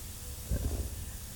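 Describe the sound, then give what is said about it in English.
Dishes are washed and scrubbed at a sink by someone wearing gloves: a steady hiss of running water with a brief low clatter about midway. “Look how good he's doing on the dishes. He's, like, actually scrubbing. I know, he's wearing gloves.”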